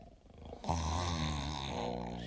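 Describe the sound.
A sleeping restaurant cook snores. After a brief quieter intake comes one loud, drawn-out, low rasping rumble that holds steady to the end.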